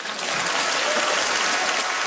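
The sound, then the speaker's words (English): Dense applause from European Parliament members in Strasbourg, France, a steady wash of many hands clapping at an even level for about two seconds, with no voices standing out. “Europarlamentarians in Strasbourg, France, mostly applauded with enthusiasm”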